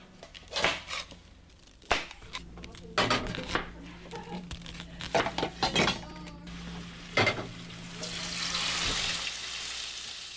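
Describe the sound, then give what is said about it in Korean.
A knife chopping onions in a café kitchen while side dishes are made: irregular sharp knocks on a board, some single and some in quick bursts, over a low background hiss. “양파 얼마나 하나 썰어?”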